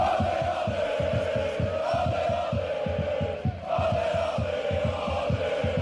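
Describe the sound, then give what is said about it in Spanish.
Partizan football supporters chant in their roughly 30,000-capacity Serbian league stadium: a loud, sustained mass of voices over steady, evenly spaced low thumps that keep a driving beat throughout, with a brief dip near the middle. “En el estadio del Partizan hay un aforo de unos 30.000 espectadores y su afición suena así.”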